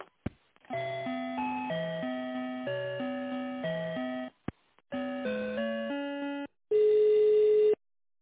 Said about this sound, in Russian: Давайте попробую вас переключить на договорное дело. Не знаю, может быть, им надо. Интересно, сейчас переключу.